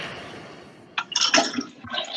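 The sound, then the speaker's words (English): A toilet flushes in a bathroom: a soft steady hiss, then a sudden loud rush of gurgling water about halfway through that churns and splashes until the end. “and there goes the flush. That was great.”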